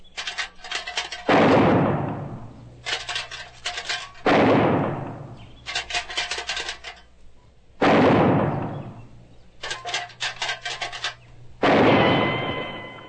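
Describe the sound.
Four gunshots fired at tin cans, each sharp report trailing off in a ringing decay and preceded by a few seconds of a metal can being rattled; the rattle-then-shot pattern repeats at a steady pace.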